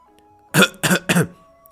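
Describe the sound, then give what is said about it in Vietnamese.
A man coughs three short, forceful times in quick succession, each burst harsh and breathy, alone with no talk around it. “Miêu Nghị hội vội ho một tiếng”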